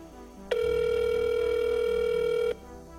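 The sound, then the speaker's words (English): A telephone ring tone heard over the line while calling a hotline: one steady, buzzing electronic tone of about two seconds that starts and stops abruptly, over faint low background music. “The rings continue. The pauses between them seem to get longer and longer.”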